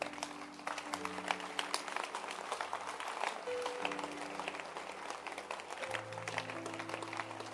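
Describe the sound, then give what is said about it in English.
Gathered listeners clap their hands during a sermon, a soft patter of applause layered over sustained, shifting musical chords. “You can clap your hands.”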